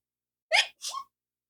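A sneeze: a short, sharp, breathy burst in two quick parts, heard on its own with no talk.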